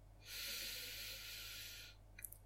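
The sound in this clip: A slow, steady breath out during a guided relaxation exercise, heard alone as a soft, airy hiss lasting nearly two seconds, followed by a couple of faint clicks.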